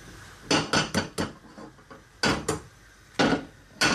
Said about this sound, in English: So this pan heats up real quick, which is great. So I've got two eggs here. I'm going to crack them into my pan.